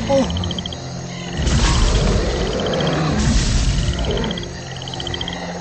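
Roaring prehistoric animals fighting near a prairie, two loud, rough roaring bursts rising over a continuous trilling chorus like croaking frogs.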